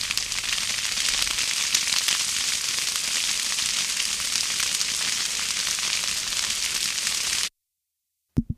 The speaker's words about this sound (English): The fire fades out.